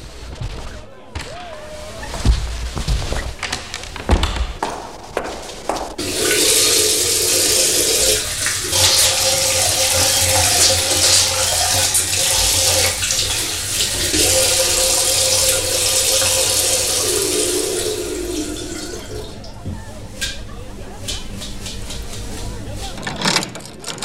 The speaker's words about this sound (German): Darf ich mir mal die Hände waschen? Nebenan ist ein Badezimmer.